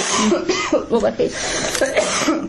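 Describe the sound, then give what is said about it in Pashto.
Coughing and throat clearing from a person who is ill, several rough bursts mixed with voiced sounds and some speech. “ټوخېږم”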